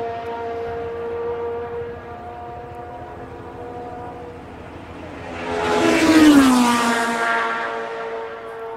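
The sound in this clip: Two Formula 1 racing cars passing together, their high, buzzing engine whine swelling from a steady drone to a loud peak, then dropping in pitch as they go by.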